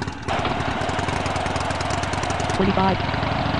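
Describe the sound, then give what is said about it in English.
The engine of a number 3 Harley motorcycle in a video game starts up and settles into a steady, continuous idling rumble with a low, even drone. “Start your number 3 Harley. Let's roll.”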